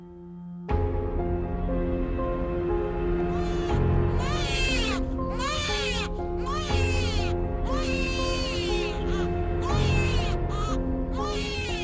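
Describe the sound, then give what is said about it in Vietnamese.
A newborn baby crying in a dark room: a long run of many wailing cries with arching, rising-and-falling pitch, loud and continuous, over a steady sustained tonal background. “Tiếng khóc oe oe cất lên trong căn buồng tăm tối.”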